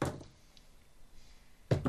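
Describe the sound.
Dice rolled onto a table during a tabletop role-playing game, heard as two short clattering thuds, one at the start and one near the end, with quiet in between.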